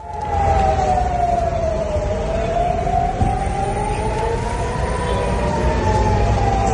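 Air raid sirens sound over Tel Aviv during rocket fire, a loud, continuous wail whose pitch slowly dips, rises and falls again. The wail is heard over a steady wash of rumbling background noise.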